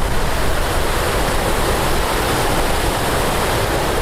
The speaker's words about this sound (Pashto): د پارون په زړه کې د رڼو او پاکو اوبو سیند بهیږي